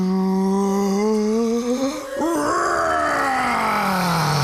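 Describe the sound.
A voice imitates a dragon's fiery breath with a long, loud, sustained groaning roar that briefly breaks near the middle, then slides downward in pitch toward the end.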